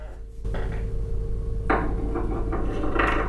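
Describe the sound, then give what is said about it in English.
A Google Home dreidel game plays a spinning dreidel effect: a clattery, wooden rattle in a few uneven bursts over a steady low hum. “Spin a dreidel.”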